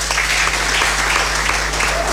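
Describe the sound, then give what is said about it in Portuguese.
Audience applause, dense continuous clapping at a steady loud level throughout, with a faint low hum underneath and no clear speech. “O Toti Samed merece mais aplausos”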